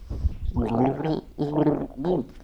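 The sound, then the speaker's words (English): A person gargles water while voicing a song melody. Three bubbly, pitched phrases are separated by short gaps, loud and alone without spoken words. “I'll put a bit more gargling.”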